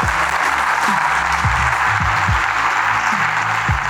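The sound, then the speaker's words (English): Applause from the audience at a live comedy show: a loud, continuous, dense clatter of many hands that holds steady from start to finish. “definitely give her a round of applause, everybody, if you feel it in your system”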